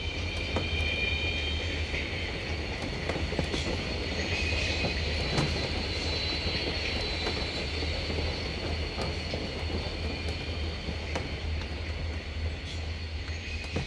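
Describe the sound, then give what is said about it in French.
Train wagon wheels roll on rails in a continuous, steady rumble. A sustained high-pitched squeal runs through it, along with many faint clicks. “Le bruit macabre des roues des wagons au contact avec les rails nous abétit, comme un somnifère, et nous laisse sans réaction.”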